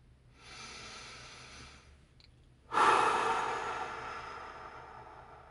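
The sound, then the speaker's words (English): A single deep breath: a soft, airy inhale lasting over a second, a brief pause, then a louder, longer exhale that gradually fades away, with no talk. “So this is your weekly reminder to take a deep breath.”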